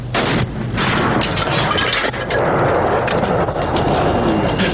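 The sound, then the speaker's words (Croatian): Firing of a 120 mm mortar: loud, dense, rumbling blasts run together into continuous heavy booming noise that fills the whole stretch without letting up. “Pitanje je da li možete od ušiju bilo kojeg promatrača prikriti zvuk ispaljenja iz minobacača od 120 mm od slušatelja koji se nalazi na području 150 do 500 metara”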